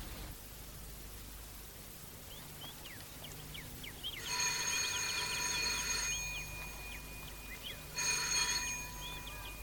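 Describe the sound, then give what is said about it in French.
A telephone rings in two separate electric bursts with a bright, buzzing bell tone, set apart by a pause over faint background hiss. “Qui est-ce qui téléphone?”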